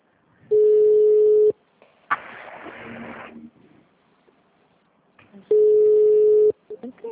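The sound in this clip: A telephone ringback tone on a call: two long, steady, mid-pitched tones, each lasting about a second and spaced well apart, with a burst of noise and faint voices in the gap between them.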